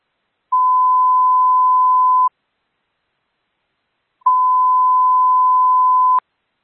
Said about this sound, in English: Central units, the following tones are for Watch 7 Alpha.